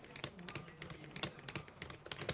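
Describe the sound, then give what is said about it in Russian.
Rapid clicking of a computer keyboard as a young man types text in a bright office, many quick, irregular keystrokes with no talk. “На компьютере парень печатает текст, смотря на экран.”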